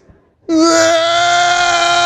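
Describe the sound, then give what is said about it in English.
A child in a tantrum bursts into a loud, sustained wail that starts abruptly and holds a steady, bright, harmonic pitch without a break. “Just go off, start crying before you've even discussed it.”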